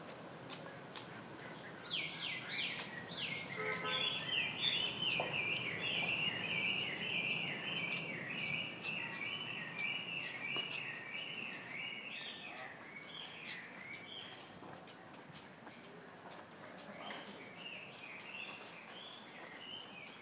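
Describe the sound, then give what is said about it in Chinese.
Small birds chirping outdoors along a street in Shanghai's Nanshi district: many quick, high, faint tweets in overlapping runs that fade later, over a low steady background hum. “这里可以听得出声音的环境，有小鸟在叫，环境是还可以的哦。”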